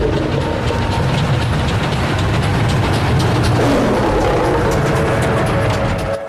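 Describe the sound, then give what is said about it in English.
Police train wheels roll over track at night in a loud, continuous rumble with a fast, even clickety-clack running through it, steady throughout with no voices. “The wheels roll over track.”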